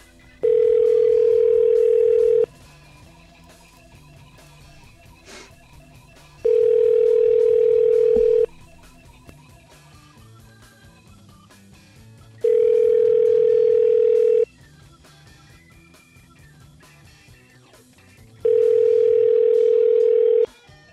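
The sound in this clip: A telephone rings unanswered on the line, four identical steady mid-pitched ringback tones, each about two seconds long, separated by roughly four-second gaps of near silence.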